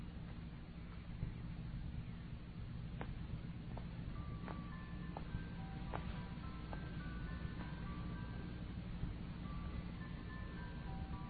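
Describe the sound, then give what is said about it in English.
An ice cream truck plays its chime melody faintly in a film scene. Scattered high notes ring out over a low, constant rumble. “This was such a strange sequence to shoot, and I think we have the ice cream truck and all these different sound effects.”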